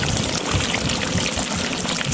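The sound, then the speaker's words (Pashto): Water trickles steadily from drip irrigation on a four-jerib farm in Jilahor village, Arghandab district, Kandahar. The flow is a continuous, even hiss with no talk. “د اوبو هغه څاڅکي چې د یو کروندګر کښت ژغوري له وچکالۍ سره د مبارزې نوې حل لار.”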